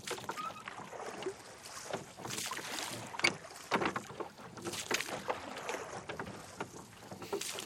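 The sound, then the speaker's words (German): Oars row a rowboat on a lake, with faint, uneven swishing and splashing strokes over a steady, breezy water hiss. “Aber hören Sie doch mal auf zu rudern.”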